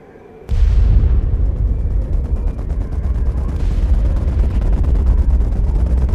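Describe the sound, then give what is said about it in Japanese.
An artillery bombardment beyond the clouds: a sudden heavy blast breaks out of near silence, then a sustained low rumbling roar follows with continual crackling bursts, staying loud to the end. “雲の向こうから聞こえてきたのは間違いなく砲撃の音だった。”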